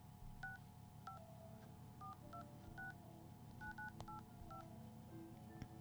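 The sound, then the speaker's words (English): Telephone keypad dialing tones, a series of short beeps at irregular intervals, faint over a low background hum. “Okay, so I'm gonna dial here.”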